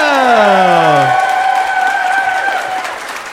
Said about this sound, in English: would you please put your hands together and welcome to the stage my special guests